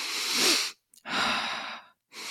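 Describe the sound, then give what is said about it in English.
Very intense, deep breaths in and out, taken as part of a round of deep breathing. Two long, forceful, airy rushes of breath are separated by brief pauses, and a third begins at the end. “doing a round of 30 breaths, really deep breaths in and really deep breaths out. You can do it through your nose or mouth, but those very intense breaths,”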